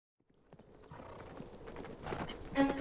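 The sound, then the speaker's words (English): Horses' hooves drum on hard ground as a few knights ride with the Duke of Austria on a winter's day in Central Europe, a steady rhythmic clatter that grows louder. “Their horses' hooves drum a rhythm on the hard ground.”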